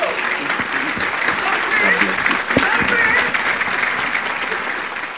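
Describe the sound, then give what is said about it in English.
Audience applause at a church service welcoming a minister to the stage: a dense, continuous wash of clapping that stays loud throughout, with voices rising over it. “I want us to please rise to our feet, put our hands together as we welcome this servant of God, this minister of God, Minister Christophe.”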